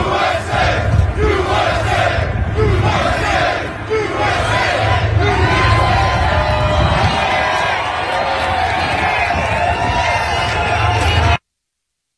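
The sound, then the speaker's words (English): Construction workers at a New York City construction site, including carpenters, pipe fitters and welders, chant "USA" in rhythmic, repeated bursts for Trump. The loud crowd shouts over general hubbub, then the sound cuts off abruptly. “Trump went out there, made a surprise visit to a New York City construction site where he's meeting with carpenters and pipe fitters and welders. And they gave him a hero's welcome. I think we've got the tape. USA! USA!”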